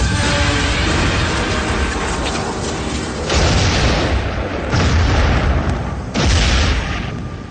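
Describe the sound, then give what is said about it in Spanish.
An anti-aircraft cannon fires, giving three heavy booms, each a loud burst over a continuous dense roar. “llega por fin al cañón antiaéreo, apunta temblando a la nube redonda destacada en el cielo y dispara.”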